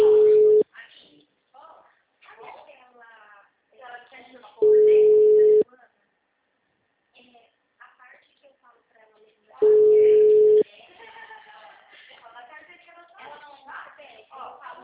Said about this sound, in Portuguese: a ligação caiu? Caiu a ligação?